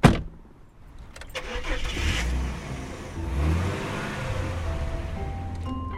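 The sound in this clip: A car engine starts with a sharp burst, then rumbles and swells as the car pulls away, its low drone rising and easing twice before settling into a steady hum.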